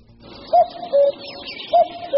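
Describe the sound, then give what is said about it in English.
Cuckoos calling in the UK: two clear two-note calls, each a higher note followed by a lower, steadier one, ringing out alone over faint background hiss. “It's the sound of cuckoos.”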